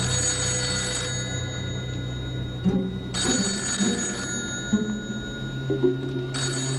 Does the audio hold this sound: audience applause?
no

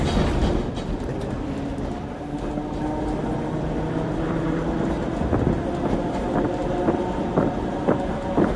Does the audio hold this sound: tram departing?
yes

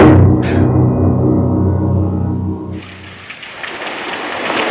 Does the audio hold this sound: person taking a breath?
no

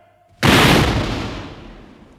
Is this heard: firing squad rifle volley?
yes

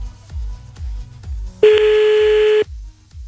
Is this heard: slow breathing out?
no

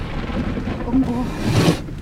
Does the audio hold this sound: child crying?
no

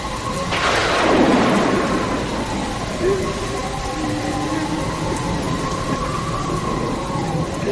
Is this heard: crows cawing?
no

